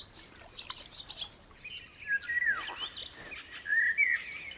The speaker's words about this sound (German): Die Schwalben können hier in der Nähe ihrer hungrigen Brut auf Nahrungssuche gehen.